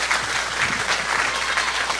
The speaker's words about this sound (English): Give everybody a clap.